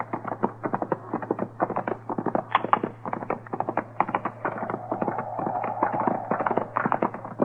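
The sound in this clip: Horse hooves clip-clop as riders move along on horseback, a brisk, steady run of many hoofbeats over a constant low hum.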